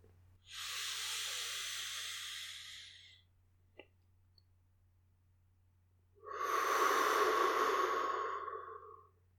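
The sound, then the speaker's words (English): Deep, slow breathing in a guided calming session: two long, airy breaths of roughly two to three seconds each, fairly loud and alone, separated by a quiet pause with a faint click, over a steady low hum. “As you're taking those deep, slow breaths, we're just aiming to slow down a little bit, calm ourselves down, and settle into the session.”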